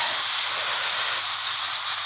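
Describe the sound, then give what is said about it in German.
Sizzling hiss as a reduced braising sauce is poured over celery in a pan. The bright, steady frying sound is loud and continuous, with no talk over it. “Das ist jetzt unsere runterreduzierte Schmorsoße. Ja? Die kommt jetzt über das... über den Sellerie.”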